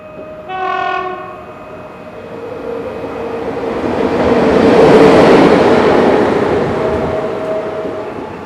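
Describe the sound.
A train horn gives one short harmonic blast. Then a northbound train rumbles past, swelling to a loud, broad roar and slowly fading.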